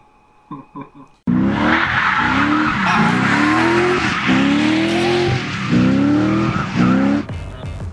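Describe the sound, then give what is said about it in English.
Loud, sustained tire squeal from a 1989 BMW 325 with an LS2 engine swap, four-clutch limited-slip rear differential, angle kit and coilovers, its engine note climbing repeatedly beneath the screech after a brief quieter opening. “my name's Yoshi, and this is my 89 325 BMW. It's got an LS2 swap, uh, 4 clutch LSD in the rear, an SLR angle kit, and some ground control coilovers.”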